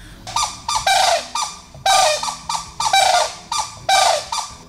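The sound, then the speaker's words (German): A pair of nesting birds calls back and forth during a nest changeover: many harsh, squeaky notes, each rising then falling, repeated loud and alone in a steady rhythm. “Das war der Wachwechsel am Nest und dabei haben sie nochmal gesagt, ah, du auch hier, haben nochmal sich gegenseitig bestätigt und einen kurzen Gesang aufgeführt.”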